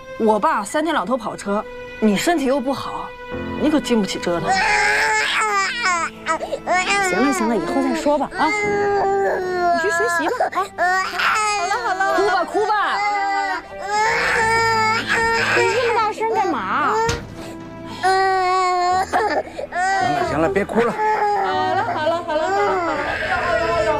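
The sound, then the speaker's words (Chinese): A baby cries loudly, a newborn or infant wailing in sustained, high, wavering cries that rise and fall in pitch and barely pause across the whole stretch. “好了， 哭吧哭吧！ 你这么大声干嘛？ 行了，别哭了。”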